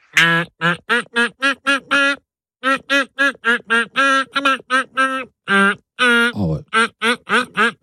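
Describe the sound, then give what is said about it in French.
A pop song performed in duck quacks: many rhythmic, pitched quacks follow a melody in quick phrases, broken by a short pause, with one lower, falling quack near the end. “Un joli canard rose, tout rose, que nous avons pêché, et qui va donc nous interpréter son tube en version canard.”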